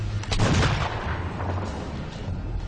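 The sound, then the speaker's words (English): A claw strike released as an explosive underwater burst: a deep, rumbling boom swells about half a second in, then trails off into a steady low roar that lasts to the end. “The speed comes from compressing this part of the claw and storing energy, which is released in this explosive burst with the acceleration of a bullet.”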